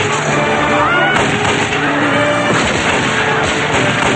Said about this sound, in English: He jumps out and fires with both guns blazing.